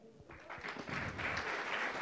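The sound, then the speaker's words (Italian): Audience applause welcoming a veteran singer onto the stage at a music show, starting soft and then swelling into a steady round of many hands clapping that carries to the end. “allora adesso io invito su questo palco una veterana del Disco Novità, quindi facciamo un applauso a Lorè.”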